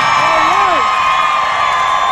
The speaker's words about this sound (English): Oh, listen to those cheers.